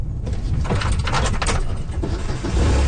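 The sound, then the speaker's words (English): A quad (ATV) engine runs on a ranch as riders set off for a wetland on the property, a rough, low rumble with some rattling that grows louder near the end. “We hop in a quad and drive to a wetland on the property.”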